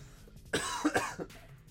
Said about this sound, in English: I just breathed in and choked. I didn't even swallow. I just breathed in and choked.